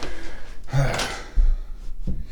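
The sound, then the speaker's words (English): A door is pushed shut at home with a dull, low thud midway, set among rustling, shuffling handling noises and soft breathy sounds before and after. “I'm going to close the door. Move your kitty butt. Now I got to push my cat away from the door.”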